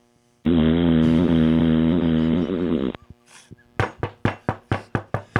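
Knocking on a door: a quick run of sharp, loud raps in uneven rhythm, following a sustained droning tonal chord that cuts off abruptly.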